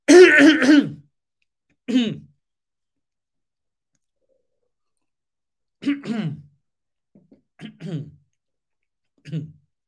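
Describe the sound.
Throat clearing during a spoken talk on prayer: one loud, rough, harsh burst at the start, then several shorter and quieter raspy bursts spaced apart, with silence in between.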